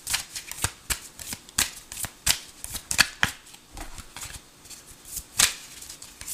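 Tarot cards being shuffled, with many crisp, papery riffling bursts at an uneven rhythm, fairly quiet and with no talking.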